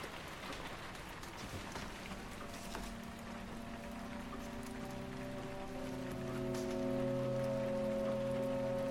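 Rain falling in a courtyard, a soft, steady patter heard faintly beneath sustained music that grows a little louder toward the end.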